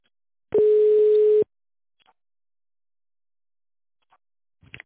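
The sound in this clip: A single steady telephone line tone, about a second long, plays while a call to a company is transferred to a specialist. Silence and a few faint clicks follow.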